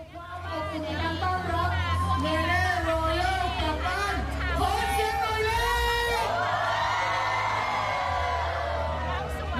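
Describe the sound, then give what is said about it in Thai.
A crowd in Phuket welcomes the America's Got Talent season 21 champion and her band with loud whoops, cheering and excited chatter. Shouted voices rise and fall in pitch over a constant wash of crowd noise. “นี่เป็นบรรยากาศการต้อนรับน้องเนเน่เรายอกหรือว่านางสาวรัติการอําลอยนะคะแล้วก็สมาชิกวงโอโซนหลังจากคว้าแชมป์รายการอเมริกาก็อตทาเลนต์ซีซั่น21”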